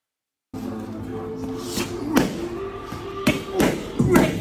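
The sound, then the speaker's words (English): Punches landing to the body during heavyweight boxing sparring: a few dull, irregular thuds that stand out over a steady low background hum, arriving in short uneven bursts. “Here's some video with the body shots.”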